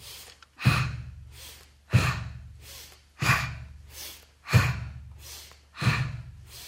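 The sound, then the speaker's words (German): Deep breaths during a standing breathing exercise, drawn in through the nose and let out through the mouth. Several loud, airy breath cycles come at a slow, steady pace, each rising sharply and then trailing off, with no talking. “Und jetzt beginne ich einatmen durch die Nase, ausatmen durch den Mund.”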